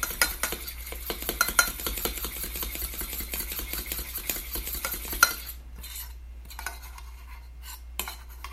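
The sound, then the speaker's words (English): A spoon stirs honey into a lemon dressing for beets, making many quick clinks and scrapes against the bowl for several seconds before the clatter thins into a few quieter taps. “So, I'm just going to stir that all up so the honey dissolves.”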